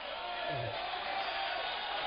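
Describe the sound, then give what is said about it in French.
An audience cheers and calls out together, a continuous roar of many voices with no single shout standing out, staying at a fairly even loudness from start to finish. “Je ne sais pas pourquoi vous acclamez, mais je ne connais pas.”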